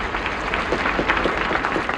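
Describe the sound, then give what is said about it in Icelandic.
A crowd applauds Iceland's newly elected president Vigdís as she steps onto the balcony of her house after the 1980 election. Many hands clap in a steady, dense wash that holds at an even level. “Og nú gengur Vigdís fram á svalirnar á húsi sínu og hún tekur við fagnaðalátum fólksins. Og hún tekur undir klappið.”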